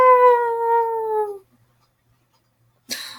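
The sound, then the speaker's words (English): A person imitates a dog's howl with one sustained, slightly falling tonal howl lasting about a second and a half. Silence follows, then a brief noisy burst at the end. “if my dog were here and I kept howling like that, she would like cry.”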